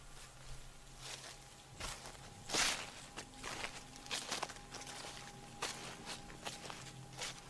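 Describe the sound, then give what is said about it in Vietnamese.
Footsteps pacing back and forth on gravel in the rain: faint, irregular crunching steps over a soft wash of noise, with one louder scrape partway through. “Tiếng bước chân người lẫn trong tiếng mưa dẫm lên cát sỏi.”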